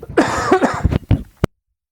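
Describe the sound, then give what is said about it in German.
Coughing from a person who is slightly unwell: a brief stretch of voice, then a few sharp, harsh coughs in quick succession, the last one short and abrupt before silence. “Ja, da haben wir den nächsten Husten.”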